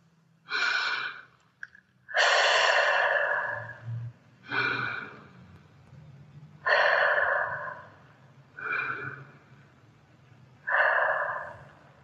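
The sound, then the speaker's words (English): Three slow, deep breaths, each a drawn-out inhale followed by an exhale, giving six soft breathy rushes spaced evenly, with a faint low hum beneath. “Stop what you're doing. T, take 3 deeper breaths.”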